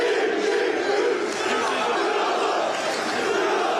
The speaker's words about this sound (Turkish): Salah'ın üçlü çektirdiği taraftarlar "Ya Allah, Bismillah, Muhammed Salah" tezahüratlarında bulundu.